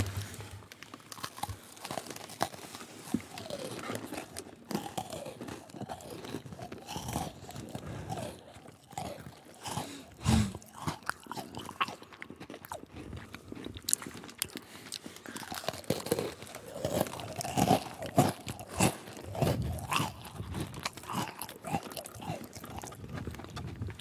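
Crunching and chewing of maple leaf shaped, maple-flavored cookies: dense, continuous crackly bites with rustling.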